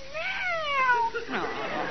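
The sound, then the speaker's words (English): A pet cat meows beside a new parrot: one clear, drawn-out cry that falls in pitch, followed by a rougher, softer sound. “Ah, pretty cat. You won't be jealous of the little parrot, will you, Skippy? Meow.”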